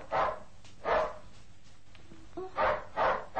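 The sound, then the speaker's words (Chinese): A dog barks at the garden gate in four loud, sharp bursts: two spaced apart early, then two close together at the end, with quiet gaps between and no voices. “你吠乜嘢啊？哦，佢好似吠一个人咁喎，但系见唔到有人嘅。”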